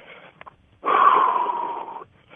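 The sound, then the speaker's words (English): Heavy, wheezy breathing of someone climbing a hill in the Tetons in Wyoming: one long, loud rasping exhale, with softer, shorter breaths before and after. “And I'm a little out of breath. Climbing up a hill at the Tetons in Wyoming.”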